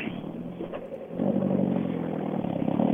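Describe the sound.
A rally car engine from a Swedish rally cup event idles with a low rumble, then swells sharply louder after about a second and holds a strong, throaty, revving drone.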